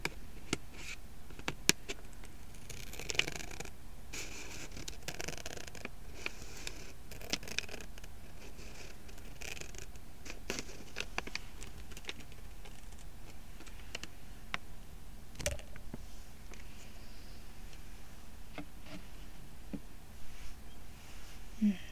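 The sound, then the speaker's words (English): A plastic package of snap pickles is cut open. Faint crinkling with many small, irregular clicks and ticks runs through the whole clip. “those snap pickles. I'm super curious what they taste like. I'm going to cut the package open.”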